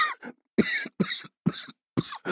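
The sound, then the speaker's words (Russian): A man with a slight cold coughs in a fit of five harsh, throaty bursts, each cut off by brief silence, the first a little weaker than the rest. “закашлялся. «Ты заболел?»”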